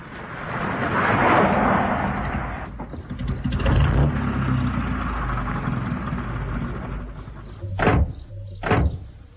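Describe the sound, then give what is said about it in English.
A car engine rumbles steadily through a radio drama scene of a drive out to Epping Forest. Near the end, two short, heavy thuds like car doors shutting break through the drone. “Accompanied by his friend, Inspector Parker, he drives out there at once.”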